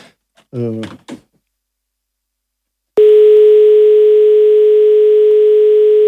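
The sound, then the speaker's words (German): A steady telephone line tone during a live DJ set, cutting in abruptly after a few brief spoken words and then holding one level, unbroken pitch until the end. “Halt, da ruft wer an, da müssen wir mal. Da ruft wer an, echt? Da ruft wer an.”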